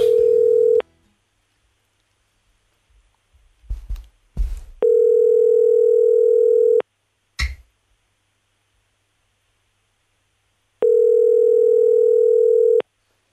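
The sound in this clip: A telephone dial tone, heard as a steady, loud, unwavering hum in three separate stretches. Silence and a few short clicks and thumps fall between the stretches, as someone places a first call.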